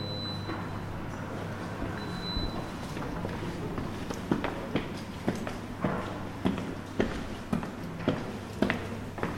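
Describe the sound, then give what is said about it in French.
Footsteps climbing the grand staircase of a former historic hospital building in Troyes, soft at first, then many regular, more distinct steps in an even rhythm over a low background hum. “Alors on va prendre l'escalier d'honneur pour commencer.”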